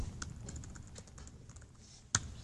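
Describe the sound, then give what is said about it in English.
Keystrokes on a computer keyboard as someone types help() into a REPL: a quiet run of soft clicking taps, ending with one sharper, louder key press. “So we can just type help parentheses in the REPL. So if we do that,”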